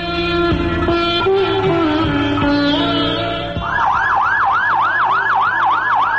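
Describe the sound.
An ambulance siren wails in fast, repeating up-and-down sweeps, loud and steady, after a few seconds of sustained droning tones at the start.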